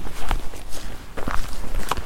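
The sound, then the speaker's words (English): Footsteps of something walking through woods at night: a few soft, irregular crunching steps spaced out over a low background hiss. “I keep hearing something walking out there, but I'm not seeing it.”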